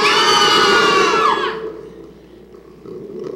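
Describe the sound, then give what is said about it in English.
An audience screams together on cue at a live event, a loud, high, sustained burst of many voices that drops away after about a second and a half, leaving a low crowd murmur. “Anyone from inside the DC Beltway, scream together, 3, 2, 1.”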